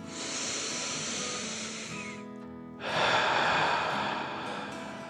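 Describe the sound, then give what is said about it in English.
A deep breath drawn in and let out: a long, steady airy inhale, a brief pause, then a louder, breathy exhale that gradually softens, with no other sound. “With another deep dragon breath in and out,”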